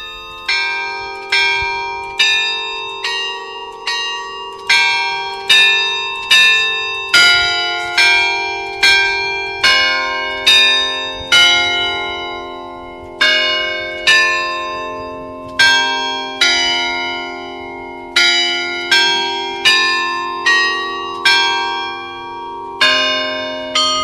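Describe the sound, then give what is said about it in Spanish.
Church bells of San Martín ring in a steady, overlapping peal, with many bright, resonant strikes following one another in a regular rhythm, loud and with no voices. “Sí, es que Noé hizo una grabación del sonido de las campanas de San Martín. Vamos a escucharlas.”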